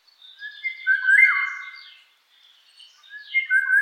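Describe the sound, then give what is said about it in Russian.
Eurasian golden oriole singing: fluting, whistled phrases with a few higher chirps, in two bursts separated by a short pause, clear and alone. “Иволга не такая уж заметная птица. Но, слава богу, есть голос, и он совершенно удивительный.”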